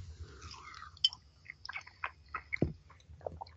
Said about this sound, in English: It just tastes like a real good, proper pork pie. And the jelly is super.